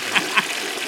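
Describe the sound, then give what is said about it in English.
A toilet flush gives a brief rush of running water, with two short louder surges near the start before it settles into a steady hiss. “Gets the flush. I love it.”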